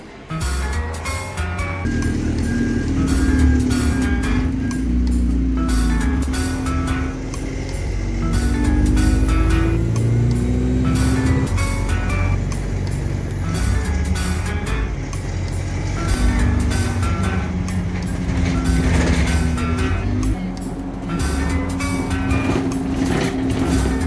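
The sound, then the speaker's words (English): Steady engine drone and road rumble fill a bus travelling in from the centre of Mansfield. The noise stays loud and continuous, and the engine pitch shifts gradually throughout. “So there we go, that was a bus journey in from the centre of Mansfield.”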